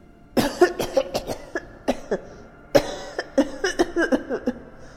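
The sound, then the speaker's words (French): A man coughs repeatedly, a cough blamed on nitre: many harsh, throaty bursts in an irregular, stuttering rhythm, with short gaps between clusters and no words spoken. “Depuis combien de temps avez-vous attrapé cette toux ?”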